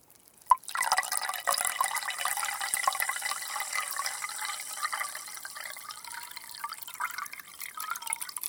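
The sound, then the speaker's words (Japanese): Carbonated water poured from a glass back into a glass bottle: a brief sharp tap, then a faint, steady crackling fizz and trickle of bubbling liquid lasting several seconds, with no talking. “そしてグラスに入った炭酸水を元のガラスの瓶に戻すと、”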